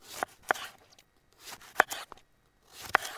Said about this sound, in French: Je suis en train de couper le citron pour faire la sauce du ceviche.